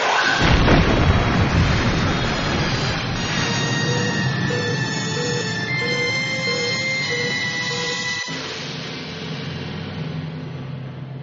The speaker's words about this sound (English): Helm, hard over. Phasers, fire, point blank. Phasers, fire!